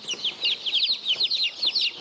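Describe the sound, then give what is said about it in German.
Colourful mixed-breed chickens calling in a busy stream of many rapid, high-pitched chirps and peeps, fairly loud and without voices. “Das sind lauter bunte Hühner”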